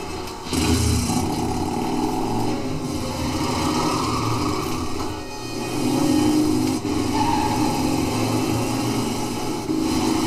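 A motorcycle engine runs steadily while being ridden, a loud continuous buzzing drone that holds its level throughout, with a brief dip midway before rising again.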